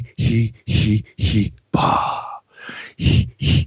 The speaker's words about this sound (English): That's a Lamaze breathing method that's supposed to relax you.